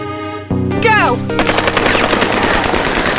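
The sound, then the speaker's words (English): Machine-gun suppressing fire in a combat game: a dense, continuous roar of rapid shots that starts abruptly after a short tonal sound and stays loud to the end. “I need a carpet of suppressing fire ahead of us.”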